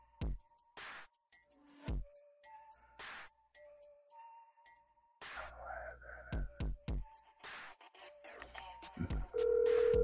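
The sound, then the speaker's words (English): Telephone tones as a call is placed: scattered short clicks and brief beeps, then a loud, steady tone held through the final moments. “So we are going to dial Goddess Coco Hush.”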